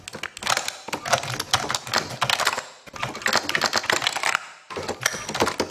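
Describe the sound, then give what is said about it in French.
Tapping and rubbing on a surface, picked up by a contact microphone for real-time gesture recognition, come as four dense bursts of quick clicks and scrapes with short pauses between them. “Et quand il tape ou quand il frotte, bah, le son se module différemment.”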